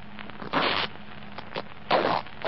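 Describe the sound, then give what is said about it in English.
Cutting open the lining of a jacket breast pocket, heard as two rasping, tearing strokes through cloth with a few fainter scrapes between them. “I sewed inside the lining of this breast pocket a photograph and 250 mark notes. If this is my jacket, they should be here now. Well, cut it. Cut the lining.”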